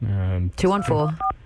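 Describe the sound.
A telephone number is dialed. Voiced, tonal sounds come first, then a single short keypad beep made of two steady tones sounds near the end.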